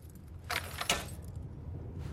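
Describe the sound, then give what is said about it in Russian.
A metal morgue drawer is pulled open by its handle: two quick, bright metallic clanks close together, fairly quiet, followed by near silence. “Тянет за ручку и выдвигает полку.”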